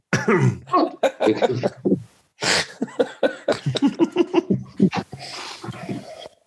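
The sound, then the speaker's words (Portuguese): Someone coughs and clears their throat after choking on wine, a run of rough, bursty coughs and gasping breaths over several seconds with a short pause partway through. “Já me engasguei com o vinho.”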